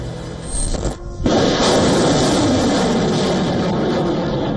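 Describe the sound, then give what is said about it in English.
A Pinaka rocket artillery launcher fires, a sudden heavy blast bursting out of a lower rumble and then swelling into a loud, sustained rushing roar that carries on steadily. “The weapon in point is Pinaka, built to deliver rapid strikes against hostile targets and developed completely in India.”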